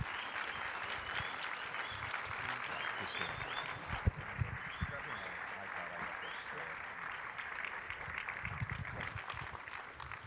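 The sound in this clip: An audience applauds to welcome a couple, dense steady clapping that holds for about ten seconds with a few sharper claps and some voices mixed into the crowd noise.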